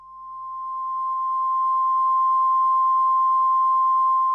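A radio transmitter test tone sounds as a single steady, pure mid-pitched beep, swelling slightly at the start and then holding unbroken at constant loudness.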